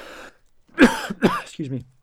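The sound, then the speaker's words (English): Coughing from a man who travels the world fighting infectious diseases: two rough, throaty bursts close together, then a short voiced sound, with no other sounds around them. “By the way, when you're talking to a guy who travels the world fighting infectious diseases, coughing is not what you want to hear.”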